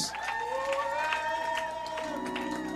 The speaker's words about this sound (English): Clap for them now. And tell them congratulations. Congratulate them right now. Hallelujah. Give God a shout of praise in this